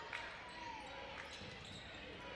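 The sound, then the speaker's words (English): A basketball being dribbled on court during a men's college game between Southern Union and Wallace State, its bounces as dull thumps half buried under a steady wash of crowd noise in the gym. “Wallace State dribbling middle of the floor.”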